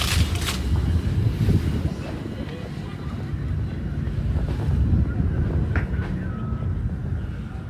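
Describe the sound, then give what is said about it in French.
Sea with the tide rising: waves wash and surge in a steady rolling roar, while gusts of wind buffet the microphone in a rough, continuous rumble. “La mer, la marée monte, remonte.”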